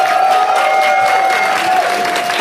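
Loud audience applause greets actors Udo Kier and Geraldine Chaplin at a film event, a dense, even wash of clapping from a crowd that holds steady throughout, with a thin sustained tone running underneath.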